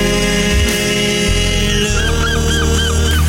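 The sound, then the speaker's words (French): A seagull calls in a short run of repeated nasal, honking squawks partway through, set against a dense, loud, sustained backing sound. “Oh non, merci la mouette.”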